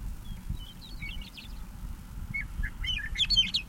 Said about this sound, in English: Bird three is audible in the background.